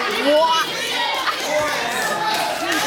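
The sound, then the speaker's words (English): A studio audience yelling together in unison, a loud, dense mass of overlapping voices shouting at once, sustained for the whole moment. “In case if you couldn't hear at home, basically universally everybody yelled, "Drink it!"”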